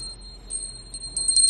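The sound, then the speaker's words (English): Puja bell ringing during Buddhist worship: a thin, high sustained ringing tone, faint throughout, with a few brighter strikes near the end. “Do you hear that? Someone doing a puja. That's the sound of the puja bell.”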